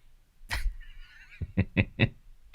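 Honking, goose-like bird calls: a few sharp, loud honks in quick succession follow a brief noisy burst and a thin wavering tone, over a quiet background.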